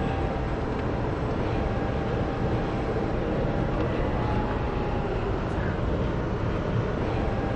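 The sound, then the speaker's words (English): Steady road and wind roar from an electric Porsche 914, the Green 14, driving at speed on the Queensway in Ottawa. A loud, even, continuous rush with no voices. “Now, we're heading on to the Queensway right now. That's correct. And so we're going to test the speed of this Porsche.”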